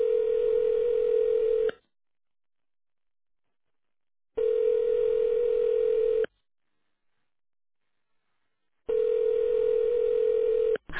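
A telephone ringback tone plays while a call waits to be answered: three long, steady, buzzing tones separated by even silences, with a fourth just starting at the end. No voices are heard.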